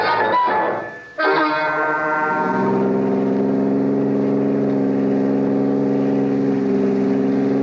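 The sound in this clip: Car engine droning as the car drives fast along a road at a little over 60 miles per hour, a steady humming tone that settles and holds level after a brief shifting burst at the start.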